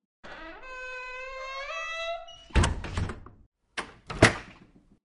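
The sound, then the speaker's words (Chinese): A door being closed: a long squealing creak, then a few heavy thuds and knocks. “对，关上门啊。”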